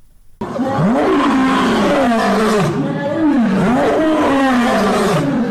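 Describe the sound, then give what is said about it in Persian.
A lion roars in several loud, deep, growling bursts, each sweeping up and then down in pitch, following one another with almost no pause. “این صدای غرش یک شیر است”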